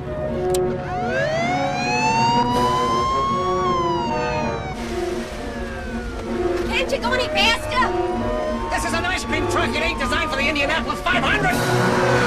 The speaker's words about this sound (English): Stan drives the van full speed down the main road, with Peter and Lisa very close behind. Peter switches on the siren.